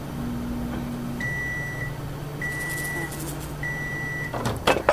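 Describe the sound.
Three steady, high electronic beeps come from a microwave oven cooking fish in a video game. They are evenly spaced over a low humming drone, and a few sharp clattering knocks follow at the end.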